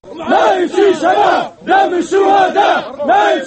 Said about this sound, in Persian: این صدای ملیشه‌های مخالف محمد القذافی در شهر بندری بنغازی است که دیروز بعد از آن خوشحالی می‌کردند که نیروهای آمریکایی و اروپایی بر نیروهای حامی